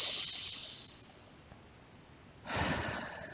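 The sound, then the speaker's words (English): Slow, deep breathing, in through the nose and out through the mouth: two long, faint, airy breaths, the first fading away and the second swelling after a quiet pause. “Take 3 deep breaths in through your nose and out through your mouth.”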